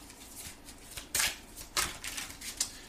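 Playing cards being shuffled, with a card dropping out of the deck: soft papery riffling under a low hiss, broken by a few sharper, crisp slaps of cards striking and falling.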